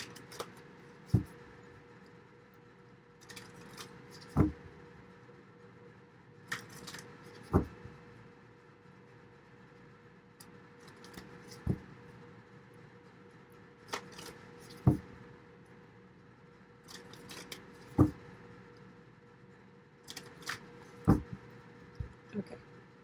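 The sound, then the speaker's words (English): Tarot cards being handled, giving sharp papery taps and slaps at a steady interval of about three seconds, with softer rustles between them over a constant low background. “All right, let me get the tarot cards.”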